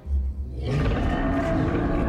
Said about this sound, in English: she just had time to hear the roar and sense movement in her peripheral vision